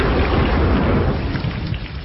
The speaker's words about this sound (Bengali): বাজ পড়ল, আওয়াজে মনে হল পৃথিবী ধ্বংস হয়ে যাবে